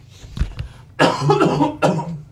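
Harsh coughing to clear a clogged throat: a faint throaty rasp, then two loud, rough coughs in quick succession.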